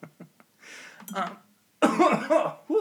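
A person coughs after breathing in the wrong way: a few small, sharp catches, then two harsher, louder coughing bursts with a throat-clearing quality and a short pause between them.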